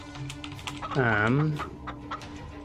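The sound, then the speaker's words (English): Chickens clucking in a video game as a flock is let loose onto a battlefield. One loud, drawn-out squawk sits in the middle, its pitch rising and then falling, with a few faint, short clucks scattered around it. “I think a flock of chickens is about to descend on the battlefield.”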